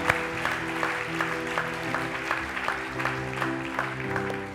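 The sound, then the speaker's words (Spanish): A church audience claps in time, many evenly spaced sharp claps keeping a steady beat over sustained musical tones. “Un aplauso, iglesia. Gloria a Dios.”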